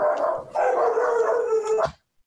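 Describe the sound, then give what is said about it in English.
Dogs howling and barking, a pack chasing a cat: long wavering howls in two sustained stretches, with a sharp yelp near the end before falling silent. “Apparently the cat is being chased by an army of dogs.”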